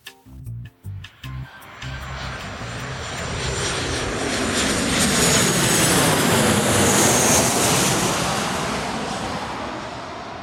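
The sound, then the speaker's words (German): A passenger airplane takes off with its engines roaring. A few short thumps come first, then a loud, broad roar swells for several seconds, peaks and eases slightly toward the end. “Endlich, hurra, wir fliegen.”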